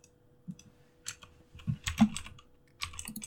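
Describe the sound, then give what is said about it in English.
Fingers type on a computer keyboard in a few short, irregular clusters of clicky keystrokes, moderately quiet over a faint steady hum. “Just type that in.”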